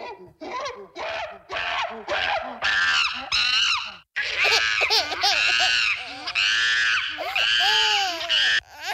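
A woman screams while giving birth: a few short, loud, harmonic cries at first, then longer strained wails and howls whose pitch sweeps up and down, nearly continuous with only brief breaks.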